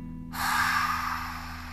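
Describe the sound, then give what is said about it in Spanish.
A long exhale through the mouth during a guided breathing exercise: one breathy rush that starts suddenly, peaks, then slowly fades over about a second and a half above a faint steady hum. “Retén. Exhala por la boca.”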